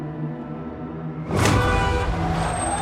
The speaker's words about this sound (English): A taxi hits the nun. It brakes.